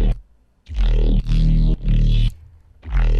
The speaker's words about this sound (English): Yeah, so this has a couple things coming in. I'm going to start with this bass here.